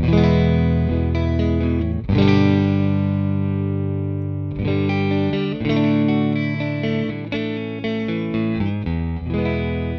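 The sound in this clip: Clean electric guitar on a Stratocaster's single-coil neck pickup through a Mesa Boogie Lone Star amp, warm chords strummed and left to ring, broken by a few sharper strums and quick picked notes, with no voices.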